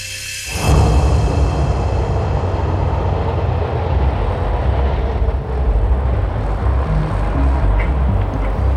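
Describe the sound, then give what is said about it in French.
Helicopters fly over Kabul carrying people to the airport, heard as a loud, steady roar with a pulsing low rumble that sets in within the first second and holds to the end. “d'hélicoptères traverse le ciel de la capitale pour transporter les personnes jusqu'à l'aéroport.”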